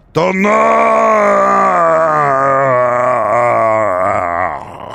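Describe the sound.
A voice imitates a bear's roar with a long, loud, throaty call held for about four seconds. The pitch falls slowly before the sound cuts off.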